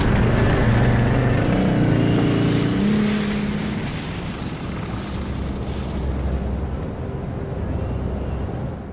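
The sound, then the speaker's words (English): Snowmobile engine in a video game, a loud, continuous rumbling drone that holds steady for the first few seconds, then eases slightly and carries on evenly to the end. “Look! There's a snowmobile over there! Perfect! We'll be able to ride right over to the Australian base with this!”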